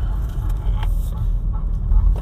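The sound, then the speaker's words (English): A car drives into a small town at about one in the morning at the end of a long drive. A steady, low engine and road rumble holds loud and continuous, with a few faint, brief ticks above it. “on a really long drive from where I was. Driving to this small town.”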